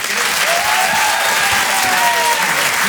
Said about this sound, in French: Je vous demande de faire un maximum de bruit.